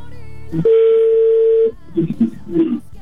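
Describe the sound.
Telephone ringback tone on an outgoing call not yet answered: a single loud, steady tone holding one pitch for about a second, followed by short bursts of talk.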